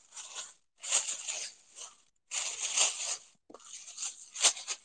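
Crinkling plastic rustle as several convenience-store plastic shopping bags are handled and folded, in a few bursts of crisp crackling separated by short pauses.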